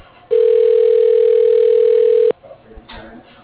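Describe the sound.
A telephone tone sounds while an extension is dialed: one steady, even beep holding for about two seconds before it stops sharply. Faint, muffled sounds follow.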